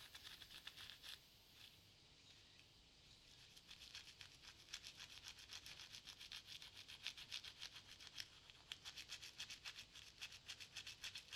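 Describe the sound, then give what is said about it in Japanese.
A toothbrush held at an angle brushes along the gums, making faint, scratchy, rapidly repeated strokes that continue throughout. “続けて歯ブラシを斜めに向けたまま、あと歯茎の間を、”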